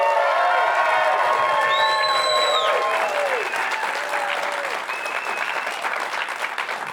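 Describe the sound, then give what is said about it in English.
Live studio audience applauding and cheering at a taping of a weekly BYU men's basketball show in Provo, Utah: dense, steady clapping with whoops and shouts throughout, easing slightly toward the end. “We are joined by a live studio audience. Let's hear you again. You sounded so good a minute ago.”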